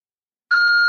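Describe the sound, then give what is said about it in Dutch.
A voicemail beep tone: half a second of silence, then a bright, steady electronic tone that holds until the end. “Gelieve een bericht te laten na de toon.”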